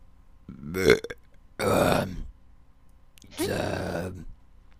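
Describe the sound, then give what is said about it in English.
A voice imitates a great red dragon belching during a tabletop fantasy role-playing game. There are three guttural burps with short silences between them, the first brief and the last two longer and drawn out. “Assuming he just burped up some boar. Yeah, he's been belching pretty regularly here”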